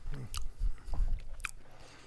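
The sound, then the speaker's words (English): Quiet biting and chewing of a soft, rich, crumbly cake-like food that tastes like fruitcake, with a few soft crunches and mushy mouth sounds over two seconds and no talking. “Wait, I'm taking one more bite.”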